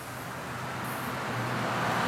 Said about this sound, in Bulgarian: Всъщност трафикът е интензивен, но пък спокоен